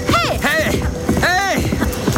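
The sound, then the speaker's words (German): A horse gallops along a road past waterfalls, with a rapid, steady patter of hoofbeats running under loud shouted calls from a rider. “Und Jack, kannst du einen kurzen Galopp vertragen? An den Wasserfällen vorbei bis hinauf zum ebenen Straßenstück. Das will ich wohl meinen. Also los!”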